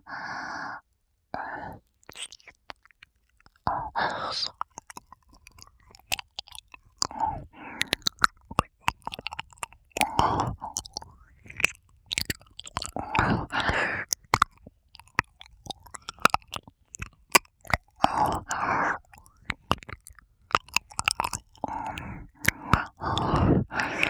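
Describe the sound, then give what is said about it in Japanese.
Chewing and biting on a tab, including the side with the hole, heard close up as many irregular wet clicks, squishes and gnawing bursts broken by short pauses, with soft breathy sighs between them. “タブを噛んでみました。穴の方にも。”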